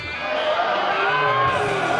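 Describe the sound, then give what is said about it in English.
A convention crowd loudly voicing disapproval of a party chairman candidate's striptease on stage, with sustained shouting and jeering from many voices throughout. “To be fair, the audience didn't approve.”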